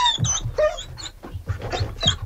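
Dogs barking at a dinner held for forty dogs in Paris: many sharp, overlapping barks and yaps come in quick succession, loud and busy throughout.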